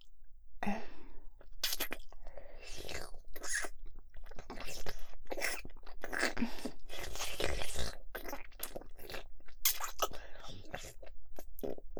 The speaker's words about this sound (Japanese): お口の中で舌を絡める、とっても濃厚なキス。